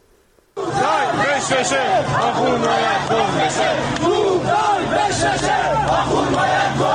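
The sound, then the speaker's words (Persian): After a brief near-silent moment, protesters in Qom burst into loud anti-government chanting, many voices shouting slogans together in a steady, insistent rhythm that holds to the end. “این صدای مردم معترض در قم هست که شعارهای ضد حکومتی میدن.”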